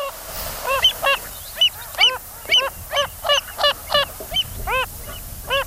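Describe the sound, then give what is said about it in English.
Calls of a Wilson's phalarope, a shorebird of salt lakes: a long, steady series of short, nasal, honking notes repeated at an even rhythm, clear and fairly loud with no voices. “And this is the call of that spinning bird of Salt Lakes, the Wilson's phalarope.”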